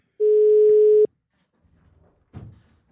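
A telephone dial tone sounds as one steady, loud, pitched beep lasting under a second and stopping abruptly, followed by faint rustling and a brief soft thump.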